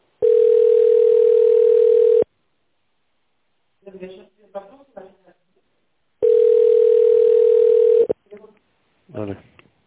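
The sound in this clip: A telephone line tone plays while a call is being transferred: two long, steady tones of about two seconds each, separated by a pause. Brief bits of talking come between the tones and after them.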